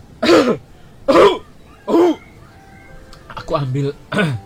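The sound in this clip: A street snack vendor with an itchy throat coughs three hard times, then clears his throat in a few rough, voiced rasps.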